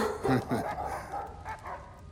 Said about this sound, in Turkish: Lanet köpekler.